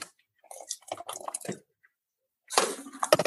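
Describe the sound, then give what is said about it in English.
Pasta water is drained off with a skimmer into a colander: a brief run of splashing and trickling, a short pause, then a louder, denser rush of pouring water at the end. “I'm just going to kind of drain it a little bit with my skimmer and then let it do the rest in the colander.”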